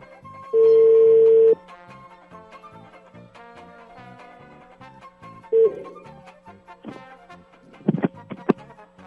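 Telephone ringback tone while a call is being placed: one long steady tone, then a brief second tone several seconds later, heard over quieter background sound and a few sharp clicks near the end.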